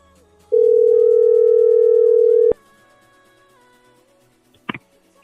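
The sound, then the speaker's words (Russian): One long, steady, low-pitched ringback tone of an unanswered phone call lasts about two seconds and stops abruptly. Quiet line noise follows, then a brief click near the end. “Что-то красотка не берет трубочку. Ребята. Красотка не берет трубку.”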